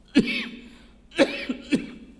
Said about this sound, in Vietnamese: Xin lỗi mấy em, ngày hôm nay tôi bị cảm và ho.